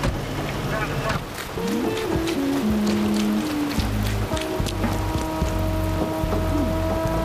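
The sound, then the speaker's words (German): Rain falls after a spell of hot weather, a steady, fairly loud hissing patter that runs continuously, with low droning tones beneath. “Hoffentlich bringt der Regen wenigstens etwas Abkühlung.”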